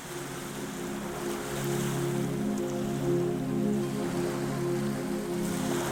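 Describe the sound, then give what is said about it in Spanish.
Stormy ocean waves churning in a raging sea, a steady, full roar of surging water with a low, constant hum beneath it, never breaking into distinct crashes. “Intentó nadar, pero las olas lo empujaban de un lado a otro como si fuera un simple trozo de madera, impotente ante la furia del temporal.”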